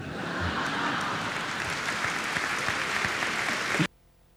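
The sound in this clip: A large audience at a technology talk applauds in a steady, loud wash of clapping that carries on evenly before cutting off abruptly near the end.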